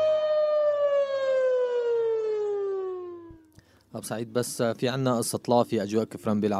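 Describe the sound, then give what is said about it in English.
An air raid siren sounds as a wartime radio alert interrupting programming, one long wailing tone that slides steadily downward in pitch before cutting off, followed by a person talking. “which would interrupt programming on, say, the nutritional benefits of lettuce. With an air raid siren.”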